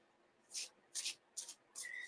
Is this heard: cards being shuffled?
yes

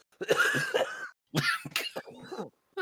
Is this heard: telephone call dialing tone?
no

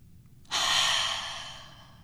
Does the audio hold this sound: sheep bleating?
no

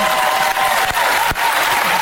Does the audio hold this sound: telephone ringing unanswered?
no

